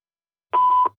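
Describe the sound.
A telephone answering machine beep: one short, steady electronic tone lasting about a third of a second, sounding alone after silence.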